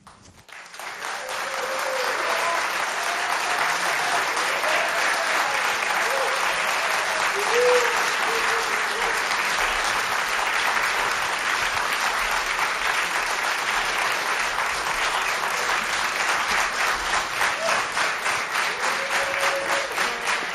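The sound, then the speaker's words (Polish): A studio audience applauds artists arriving on stage in a radio station's concert studio: loud, dense clapping that swells in over the first couple of seconds, then holds steady and sustained to the end. “Bardzo dziękujemy za tak gorące powitanie artystów na scenie studia imienia Agnieszki Osieckiej.”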